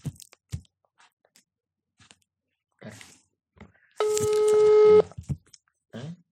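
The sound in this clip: A telephone tone rings out for about a second, a steady, layered electronic pitch, set among sparse short taps and clicks on an otherwise quiet line.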